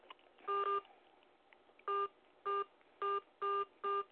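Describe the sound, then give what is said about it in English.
Telephone keypad dialing tones as someone calls back into a phone conference line: a longer beep, a pause, then five short, evenly spaced beeps, faint and alone. “I got to call back in and then connect some of the callers back.”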